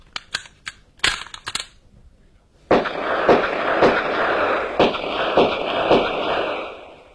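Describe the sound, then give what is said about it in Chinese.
Gunshots fired at a target: a run of sharp, quick clicks and cracks, then several loud bangs spaced roughly half a second apart over a steady, noisy wash. “好枪法呀，真是名不虚传。六发子弹，靶上只见两个洞。”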